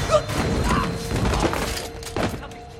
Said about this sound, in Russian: Немцы идут с фонариками. Один из них спотыкается о ступеньку.